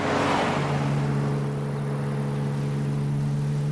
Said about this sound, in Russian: тормозит возле летнего домика